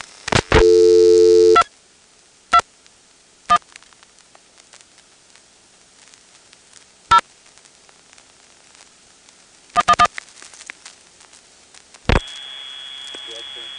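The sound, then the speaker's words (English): Telephone line audio from a call to a vacant 221 number dialed from Occoquan: a short loud tone burst, then scattered clicks over a quiet line, ending in a steady sustained tone. “Here's an actual 221 vacant 1000 group dialed from Occoquan earlier tonight.”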